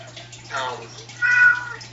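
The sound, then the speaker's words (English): A whiny cat meows twice, two drawn-out nasal cries over a steady low hum. “I'm going to have to excuse myself because my whiny cat just got here and I need to take him to the garage.”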